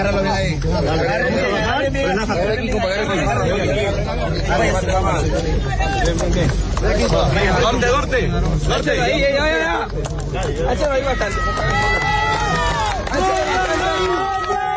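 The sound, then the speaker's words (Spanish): Crowd of rescuers shouting and calling over one another as a man is pulled alive from earthquake rubble. Many agitated voices stay loud and continuous throughout. “Rescates como este que escuchan, el de un hombre al que han conseguido sacar vivo de entre los escombros 106 horas después”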